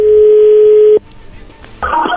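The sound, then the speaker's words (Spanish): A telephone dialing out: a loud, steady dial tone holds for about a second and cuts off, then after a brief quieter lull a brighter, wavering telephone tone starts up. “vamos a marcarle en este momento”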